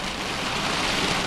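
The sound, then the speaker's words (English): Heavy rainfall in Camarillo Springs during a big El Niño-fueled storm, a steady, dense hiss of rain with no pauses. “That's the sound of rainfall in Camarillo Springs.”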